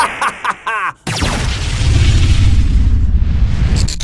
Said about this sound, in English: Damn it, he's destroyed the portal!